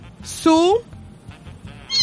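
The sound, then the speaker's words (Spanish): A cat gives a single short meow with a rising, tonal cry, standing out clearly over soft background sound. “Su miaullido. ¿Ves? ¿Se dice miaullido o maullido? Maullido. Maullido, ¿cierto? Su maullido.”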